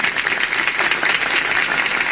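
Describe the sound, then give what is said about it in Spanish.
Concert audience applause, loud, dense clapping that continues steadily from start to finish with small swells in level. “A ver, ¿cómo dicen esas palmas?”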